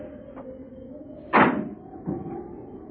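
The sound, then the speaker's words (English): A car door slams shut with one sharp, loud thud, followed shortly by a softer second knock, both over a steady low background hum. “They sat there in the car perhaps 10 minutes before the car door slammed shut.”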